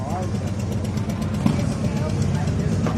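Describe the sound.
Motocross motorcycle engines from larger machines ridden by older teenagers at a youth motocross race, forming a continuous, fairly loud engine drone with a brief surge near the middle.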